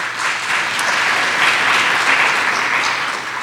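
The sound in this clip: Audience applause welcoming a speaker up front during a church sermon series: brief, dense and even clapping that stays steady from start to finish.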